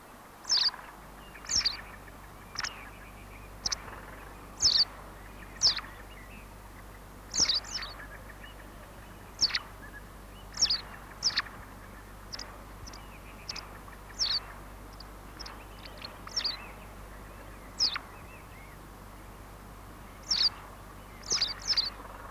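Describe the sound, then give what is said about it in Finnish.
Lively twittering bird song with black grouse lekking calls, heard as many short, high chirps and trills in irregular bursts over a faint, steady low background. “Itse laulu on vilkasta visertelyä. Visertelyn ohella voit kuulla teerien soidin ääniä.”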